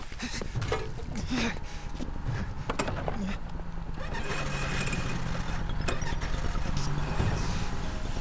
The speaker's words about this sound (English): A truck comes speeding up the road toward the other bridge.